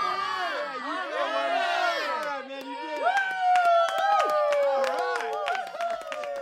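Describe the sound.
An audience applauds and cheers to welcome a comedy duo, with dense clapping under many whooping, shouting voices that keep up loudly and continuously throughout.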